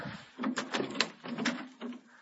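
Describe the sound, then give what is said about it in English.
A door is being opened, giving a series of faint clunks, rattles and scrapes that come and go in uneven bursts. “Let me get this door over here.”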